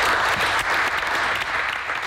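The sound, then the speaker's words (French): A crowd applauds five new European champions with loud, dense clapping that stays full and even for about two seconds. “On peut les applaudir.”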